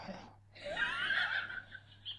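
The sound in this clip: Breathing of a person who has dozed off mid-activity while reading a book: a short breath, then a long, airy, hissing breath and a faint final puff, all over a steady low hum.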